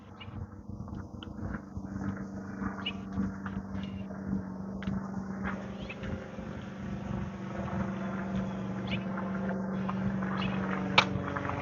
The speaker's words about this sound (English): Must be some wind up there.